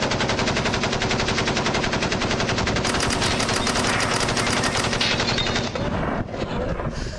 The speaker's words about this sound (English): My favorite part is when you hear the shell casing start to hit the floor. That's my best part of rapid fire.